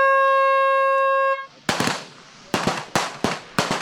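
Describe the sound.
Gunshots at the Feldschießen, Switzerland's annual field shooting festival, where rifles fire in a field competition. A sustained horn-like tone comes first, then several loud, sharp cracks ring out at irregular intervals.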